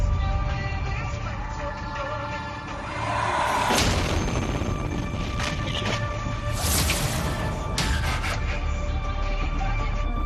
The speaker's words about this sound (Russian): Мне как-то взорвалось что-то. Нет, это сбили.